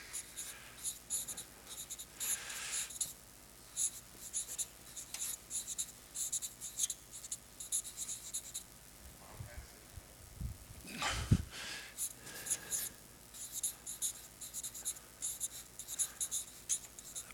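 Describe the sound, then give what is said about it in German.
Handwriting with a pen on paper, many short, faint scratching strokes in uneven bursts separated by brief pauses, quiet throughout. “Ja, schreiben wir auch.”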